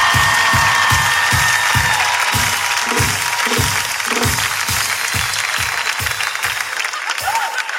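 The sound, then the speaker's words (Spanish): Audience applause and cheering at a live comedy show in a theater, dense and loud throughout, with a steady rhythmic low pulse running beneath the clapping. “Más fuertes aplausos.”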